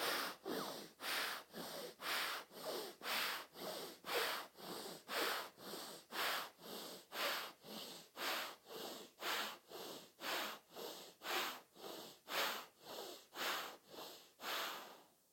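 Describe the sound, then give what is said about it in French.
Alternate nostril breathing in a yoga exercise, a long, steady train of many airy nasal breaths at an even, regular pace, quiet and with no voices. “Grande inspiration à droite. On ferme à droite, on ouvre à gauche, expire à gauche, encore une quinzaine à gauche.”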